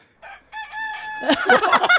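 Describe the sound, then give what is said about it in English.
A rooster crows in a drawn-out, tonal call, then breaks into a rapid series of loud, choppy clucks and squawks. “It's a rooster. It's meant to be a bloody magpie.”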